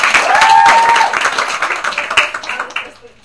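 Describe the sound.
Audience clapping during a lesson, loud and dense at first, then thinning into scattered claps that fade away over about three seconds.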